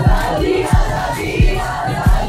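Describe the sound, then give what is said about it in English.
A crowd cheers and shouts outside a courthouse after a ruling, a loud, continuous roar of voices punctuated by four evenly spaced deep thumps. “Outside though, people erupt into cheers.”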